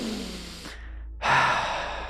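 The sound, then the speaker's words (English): A deep breath drawn in during a guided meditation exercise: a soft, airy rush of breath, a brief silence, then a louder, fuller breathy intake that slowly fades, with no talking. “Do this with me. Take a deep breath.”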